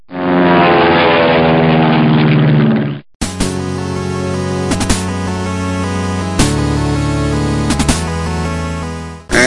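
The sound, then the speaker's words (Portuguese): Propeller-driven bomber aircraft over England in 1940, a loud, steady engine drone that holds throughout with a few brief surges, no voices. “Vamos começar em 30 de julho de 1940. O que aconteceu nesse dia? Era dia de bombardeiro na Inglaterra, né?”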